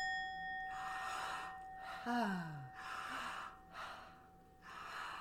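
Deep breaths during a breathing exercise, a few long, airy inhales and exhales that swell and fade in turn, quiet and separated by short pauses.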